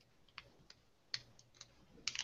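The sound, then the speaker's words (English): Caps are posted onto two fountain pens, an O2 and a 19, giving a series of faint, sharp plastic clicks and taps spaced irregularly, with a small cluster near the end, over near silence. “And then when we take the pens and we post them,”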